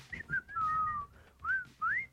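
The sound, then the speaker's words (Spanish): A person whistles a song tune in a few short phrases and one long held note, with gliding, mostly rising pitch between them, clear and alone. “¿Cómo se llama esa canción? Una que lleva un chiflido. Y entonces me decían mis amigos, a ver, ¿cómo va? Y yo...”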